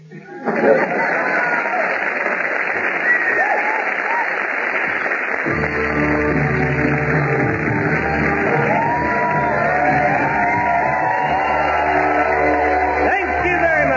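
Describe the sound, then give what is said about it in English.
A studio audience cheers, shouts and whoops loudly and without pause, and music joins the sustained din partway through. “But at Brennickines, did you hear that lovely audience?”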